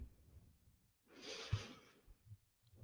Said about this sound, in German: atme nochmal einmal ganz tief durch die Nase ein.